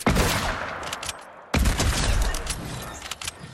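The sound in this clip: Hunting rifle gunfire in a video game: a few loud, sharp shots with harsh cracking decay, one heavy blast at the start and another about midway, separated by ringing tails and smaller clicks.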